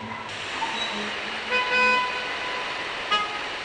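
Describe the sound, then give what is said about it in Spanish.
Car horns honk in a traffic jam, with a few short tonal toots rising above a steady, dense wash of engine and road noise. “En la siguiente cinta se ha grabado las reacciones de un hombre al esperar 6 minutos y medio en una esquina dentro de un auto en un embotellamiento.”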